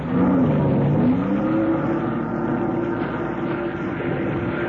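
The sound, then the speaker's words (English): A 230-horsepower Johnson motorboat engine on a lake roars loudly. Its droning pitch climbs briefly at first, then settles into a sustained, even hum with no voices. “That boat of Alex's is the fastest one of the lot. 230 horsepower Johnson.”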